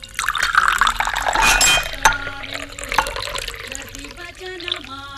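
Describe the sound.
Water is fetched and poured into a glass for someone about to take a pill, with splashing liquid and a few light glass clinks over a steady trickle.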